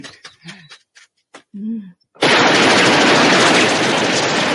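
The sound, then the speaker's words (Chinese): Loud, rapid cartoon gunfire in a forest bursts out as one continuous, dense roar lasting over two seconds, following a few short spoken or vocal sounds at the start. “太仔喺呢度都可以听到森林入面嘅枪声㗎”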